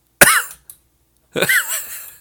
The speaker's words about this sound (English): I coughed right into the fucking microphone like an idiot